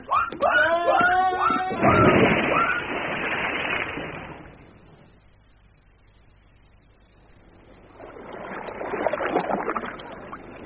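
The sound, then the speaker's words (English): Oars splashing as a boat is rowed on a river, in two swells of watery swishing separated by a quieter lull, with birds chirping at the start. “I can't allow you to miss the pleasure of rowing this boat any longer. Come on, change over.”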